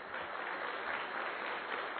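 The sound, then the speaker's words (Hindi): An audience applauds for the Indian Navy at an event attended by senior officers, giving a short, continuous, dull-toned patter of many hands at a moderate, even level. “तो एक बार हम navy के लिए तालियां बजाएं।”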